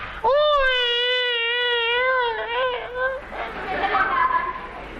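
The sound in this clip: A performer's voice imitates Peking opera-style crying: a long, sustained wailing tone that wavers and dips in pitch for about three seconds, then breaks into softer, breathy, uneven sobbing sounds.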